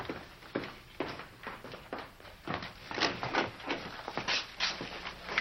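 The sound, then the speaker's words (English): Footsteps of people walking down a hospital ward corridor: a steady run of many soft, overlapping steps at an even walking pace. “They walk down the corridor.”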